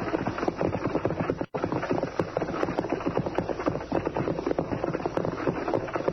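A horse-drawn wagon moves along with a dense, steady rattle and rumble and a quick, even beat of hooves throughout, cut off briefly by a short break near the start.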